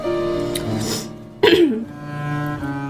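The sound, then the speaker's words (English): A single sharp cough from someone with a bit of chicken nugget caught in the throat bursts out midway over a steady tonal background, with no talking. “I have like a little bit of McNugget caught in my throat.”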